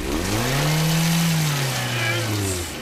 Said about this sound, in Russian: Машина застряла и не может выехать. Чё, газуй, чё!